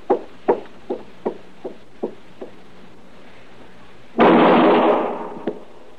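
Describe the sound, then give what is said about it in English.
A single loud gunshot bursts out in an alley and trails off slowly, preceded by several soft, evenly spaced knocks that fade in strength. “Okay, you go up there to that alley and do a shooting for him, Chester.”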